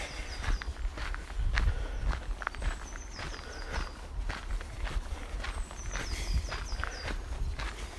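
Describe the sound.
Footsteps of someone power walking for exercise: a brisk, regular stride of many quick, firm steps, keeping an even rhythm from start to finish.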